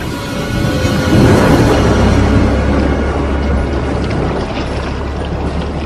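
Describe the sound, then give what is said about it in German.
A boat setting out from the mainland across the water toward an island: a loud, continuous rushing wash with a low rumble beneath it, swelling slightly early on and then holding steady. “machen Sie sofort ein Boot klar. Wir fahren rüber.”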